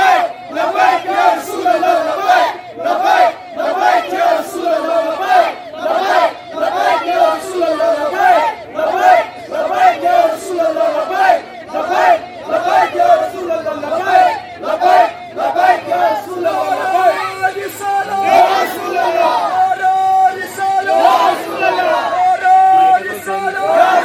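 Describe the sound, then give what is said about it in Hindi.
A protest crowd in Indian-administered Kashmir, angered by the desecration of the Quran, chants Labbaik ya Rasulallah. Many voices shout in rhythmic unison, with loud bursts repeating steadily through the whole stretch. “Bharat नियंत्रित कश्मीर की जनता ने भी पवित्र कुरान के अनादर पर आक्रोश व्यक्त करते हुए लब्बैक या रसूलल्लाह के नारे लगाए।”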